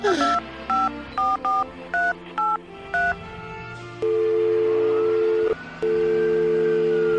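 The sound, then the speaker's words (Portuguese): Telephone keypad tones as someone dials the police: seven short dual-tone beeps in a quick, slightly uneven sequence, followed by a steady, continuous line tone with one brief break. “Vou ligar agora mesmo.”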